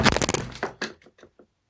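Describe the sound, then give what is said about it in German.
A wooden wardrobe cracks apart while being dismantled, opening with a dense burst of sharp splintering cracks and heavy thunks, then a few sparser, fainter knocks dying away into silence. “Okay. Der Schrank ist auseinander, mir geht's gut, danke.”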